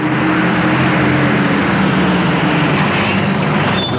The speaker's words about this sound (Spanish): Cogemos el autobús, que ni siente ni padece, venga.